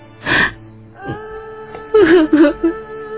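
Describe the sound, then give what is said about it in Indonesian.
A daughter cries suddenly in a dramatized family scene, with a few uneven bursts of wailing, moaning sobs and breathy, gasping catches between them, growing choppier toward the end. “Mengapa kau tiba-tiba menangis?”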